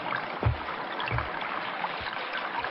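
River water by a reed patch, splashing and trickling faintly in a steady soft wash, broken by a few low, muffled splashes.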